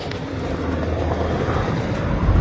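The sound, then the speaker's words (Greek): A helicopter flies over a burning factory, with a steady low rumbling engine drone that holds constant and swells slightly louder toward the end. “βλέπετε ένα ελικόπτερο εδώ, και στο βάθος υπάρχει ακόμη ένα, δεν ξέρω αν είναι αρκετά, δύο ελικόπτερα”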